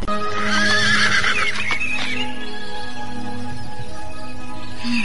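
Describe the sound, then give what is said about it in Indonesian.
A horse lets out a loud, shaky whinny early on, mixed with clip-clopping hooves, then the steady background sound carries on to the end. “Kelihatannya kuda ini bisa kupakai.”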